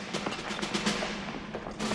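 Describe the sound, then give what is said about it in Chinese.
Gunfire erupts inside a small headquarters room: a dense, unbroken barrage of overlapping shots that stays loud throughout. “霎时间，小小的指挥部里枪声大作，战成一团。”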